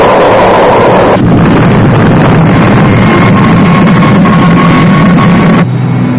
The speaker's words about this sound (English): Engines are running smoothly, but the tail section is giving trouble.